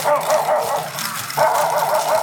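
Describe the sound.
A small dog barking during a bingo game, several sharp, fairly high yips and barks in quick bursts, loud and clear with no talk over them.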